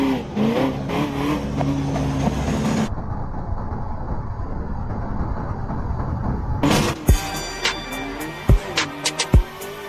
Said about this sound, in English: Which car overtakes the truck and survives? Chevrolet Camaro.